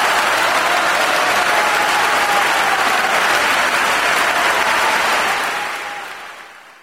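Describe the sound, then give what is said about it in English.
Wild applause from a concert audience at Carnegie Hall after a virtuosic Liszt piano showpiece, a dense, loud, steady roar of clapping that holds for about five seconds and then fades out. “Evgeny Kissin plays it with brilliance and incredible clarity, and the audience goes wild.”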